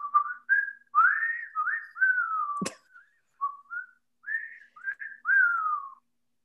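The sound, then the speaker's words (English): Someone whistles a television theme tune, a bright melody of short and held notes with brief pauses between phrases and one sharp click midway, with no voices. “Is Andy Griffith the whistling one? Yeah.”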